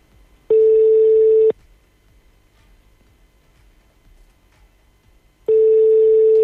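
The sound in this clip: Phone line tone on a call that fails to connect, two identical steady one-second electronic beeps separated by about four seconds of low line hiss, loud and alone.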